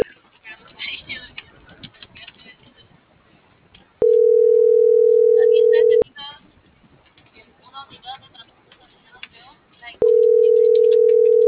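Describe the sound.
An unanswered phone call gives two long, steady ringback tones about six seconds apart, with a voice talking between them.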